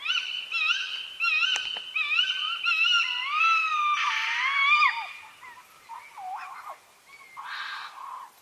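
Tawny owl calls: many high, wheezy, wailing screeches in repeated bursts, some notes bending up and down in pitch, with the later calls rougher and more scattered.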